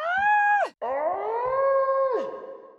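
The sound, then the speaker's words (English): A human voice imitates high-pitched, dolphin-like squealing: two drawn-out, bright squeals separated by a brief gap, each held steady before ending in a sharp downward slide. “Well, probably something high pitched and in a dolphin language.”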